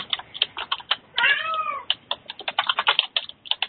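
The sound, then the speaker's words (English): A domestic male cat gives one drawn-out meow, clear and rising over rapid clicking of a computer keyboard being typed on. “I think we're hearing Deb's cat. I think it's Deb's cat.”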